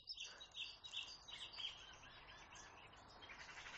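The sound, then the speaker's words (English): A magpie's chattering call: a quick run of harsh, high repeated notes in the first half, faint and alone, then trailing into a quiet background hiss. “Now that was a magpie calling. Cha-cha-cha-cha-cha! Which is a typical magpie call.”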